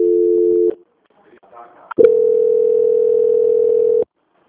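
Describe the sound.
Telephone call transfer tones on a bank customer service line: a short steady electronic tone, a brief pause with faint murmuring, then a longer, slightly higher steady tone holding for about two seconds before cutting off.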